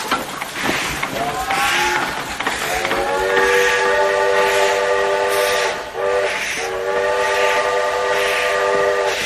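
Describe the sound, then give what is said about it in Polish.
A train whistle sounds at a railway station: a loud, steady multi-tone blast that holds for several seconds, breaks briefly, then resumes to the end over a rumbling noise bed. “Dworzec Gdański.”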